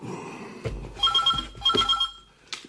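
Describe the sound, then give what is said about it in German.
A telephone bell rings loudly and harshly in two short bursts of bright metallic trilling, with a few dull knocks before, between and after the rings. “Das Telefon klingelte, laut und unfreundlich.”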